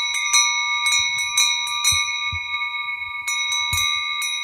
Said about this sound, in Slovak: to všetko naraz cengalo. Počuli ste? Tie plechové zvonce nosili veľké ovečky a malé liatovce, čiže liaté zvonce, s jemnejším zvukom dávali na krk jahniatkám.